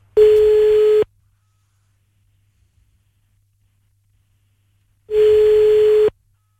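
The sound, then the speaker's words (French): A telephone ringback tone sounds as a call is placed: two long, steady, mid-pitched beeps, each about a second long, with roughly four seconds of silence between them. No dialing tones are heard. “Allez, c'est parti, on y va, on l'appelle, bonne chance.”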